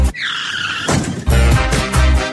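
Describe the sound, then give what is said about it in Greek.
Motorbike engines rev at full throttle while riding a wheelie. A high, wavering whine at the start gives way to loud, rough roaring bursts that surge twice. “Στη μηχανή ανέβα. Και έχουμε φουλάρι τις μηχανές. Πάμε Ζιμπάμπουε. Με μια ρόδα.”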